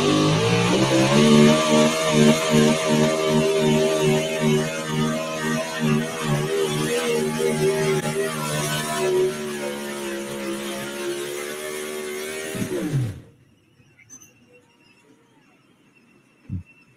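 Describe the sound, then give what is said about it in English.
Loud, buzzing, strongly harmonic roar of a big block Ford drag racing engine burning racing gasoline, held for about 13 seconds before cutting off abruptly into near silence, with one brief click at the end. “Loretta Selman, she had that big block Ford singing a tune.”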